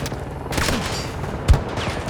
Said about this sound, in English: Definitely shooting at me for no reason.